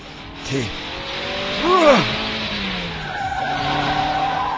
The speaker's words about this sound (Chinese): 每一个弯都入得相当准确，而采取嘅系漂移嘅入弯方式，就好似跑上山嘅越野赛咁。